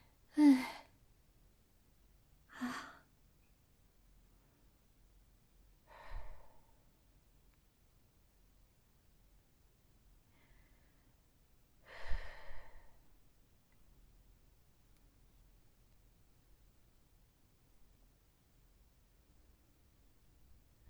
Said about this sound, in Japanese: それでは、ちょっと、深呼吸して落ち着こうと思います。